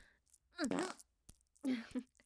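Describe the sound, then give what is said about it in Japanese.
Two faint farts of forced-out intestinal gas while the buttocks are being probed, each a low buzzing, wavering blurt lasting about half a second, separated by a soft click. “おっと、屁が出た。ごめんね、お尻をほじられているものだから、腸のガスが強制的に漏れちゃうんだ。”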